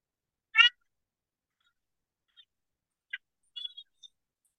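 An electronic predator call playing a half-breed fight: one harsh, cat-like squall, then a few faint, clipped chirps separated by silence.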